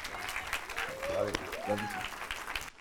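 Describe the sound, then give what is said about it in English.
A church audience applauds to welcome their pastor at a Christmas-season service, with steady, continuous clapping. A voice is audible over the applause. “So please give a warm, radiant welcome to my pastor, Pastor Lee.”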